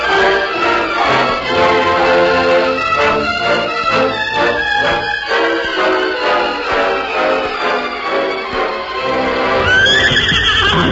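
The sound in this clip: Whinnying from the horses of a freight wagon team being hitched in a wagon yard before sunup, loud, strained harmonic neighs running almost continuously, with a fresh high cry near the end.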